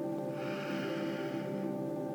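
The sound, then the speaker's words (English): A slow, deep breath drawn in during a guided meditation: a soft, breathy hiss swells and fades over about a second, faint above a steady, held tonal drone. “Let's take a deep breath in together and hold at the top. Deep breath in.”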